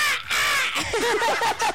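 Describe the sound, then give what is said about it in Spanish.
A human voice imitates a black crow's cawing: a harsh, nasal drawn-out call followed by a quick run of short, rough caw-like bursts, loud and alone. “me sentí como un cuervo de esos negros.”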